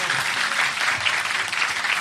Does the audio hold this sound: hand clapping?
yes